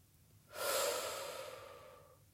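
One slow guided breath, a soft airy exhale that swells in after half a second and then gently fades over nearly two seconds, faint and alone.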